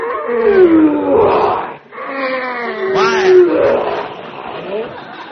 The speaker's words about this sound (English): That's that lion in that cage over there. Oh. Ferocious-looking beast, ain't he?